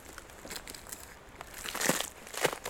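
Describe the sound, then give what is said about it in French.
Crunching on an icy road in the Hautes-Pyrénées mountains: faint, irregular crackling crunches that grow somewhat louder toward the end. “Une route verglacée.”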